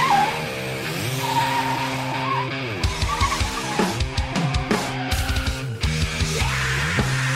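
A car engine roars as the car accelerates while its tires skid and squeal, loud and sustained throughout, turning choppy with rapid bursts in the second half.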